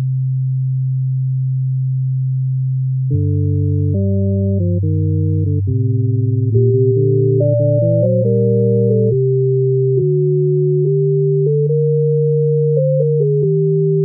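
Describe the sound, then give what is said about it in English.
A fugue played in pure sine-wave tones: a slow, low bass line sounds alone at first, then tenor and alto voices enter above it, moving twice as fast in shifting steady pitches while the bass holds long notes beneath. “Okay, this was the tenor and alto coming in twice as fast over the bass, which is still going because it is twice as slow.”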